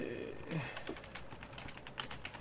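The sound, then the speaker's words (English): Faint keyboard typing on a computer: many soft, quick key clicks in an uneven patter over a low steady background. “Sorry, I had to type something for you.”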